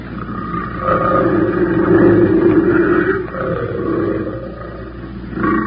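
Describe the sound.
A big cat, a female, roars near her bait kill on a trail: one deep, rumbling, sustained roar that swells and eases for several seconds, loud and alone with no voices.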